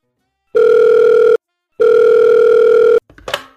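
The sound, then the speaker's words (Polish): Telephone line tone heard while a call to Kłodzko connects: two steady, loud, buzzy tones, the second longer than the first, separated by a short silence and followed by a brief clicking rustle on the line. “no to teraz łączymy się z jaką miejscowością? Kłodzko, Kłodzko.”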